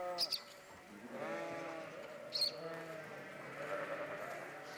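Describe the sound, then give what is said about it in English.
Sheep and goats bleating as a flock and herd set off. Several wavering, harmonic calls overlap over a steady murmur of the animals. “Before the sun rose the next morning, all the Hebrews set off, taking their flocks and herds with them.”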